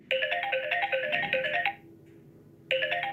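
An electronic telephone ringtone in an office: a bright, rapidly trilling warble sounds for about a second and a half, pauses, then starts again, with no voices.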